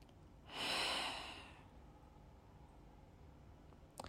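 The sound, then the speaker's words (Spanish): One deep breath, a soft breathy rush that swells and fades in about a second, alone against quiet background hiss. “voy a respirar hondo”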